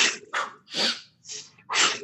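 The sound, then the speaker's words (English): Forceful breaths pushed out through the mouth, part of a breathing exercise that begins with inhaling through the nose: five sharp, breathy bursts in an uneven rhythm, loud and airy with short gaps between them, no talking. “breathe in through the nose, breathe out through the mouth really forcefully.”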